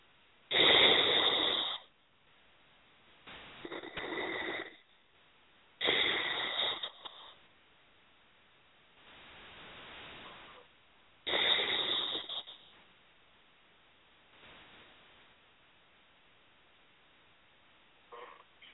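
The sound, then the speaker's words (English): Slow, deep breathing: several long, loud breaths with rough airflow, separated by quieter stretches and pauses, spread over the whole clip. “And three nice deep breaths.”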